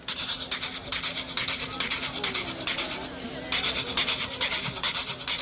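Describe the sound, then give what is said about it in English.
A scraper rasping across the ridges of a gourd from Africa, played as a percussion instrument: many loud, even scraping strokes in a steady, driving rhythm, each stroke a bright, gritty rasp. “On this gourd, there are some ridges. And using a scraper, if I scrape the gourd, you will hear the typical sound of rip saw, also known as rick and scrape.”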